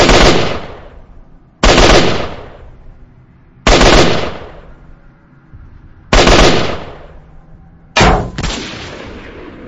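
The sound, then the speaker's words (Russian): Short bursts of automatic gunfire aimed at a watchtower beside a metal hangar: five loud, sharp blasts at fairly even intervals, each followed by a long decaying tail. The last one is slightly quieter. “Артем, коротко высовываясь, принялся поливать вышку короткими очередями, но очередная пуля так близко от его головы прошибла металл ангара”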